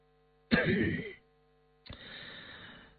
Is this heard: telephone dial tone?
no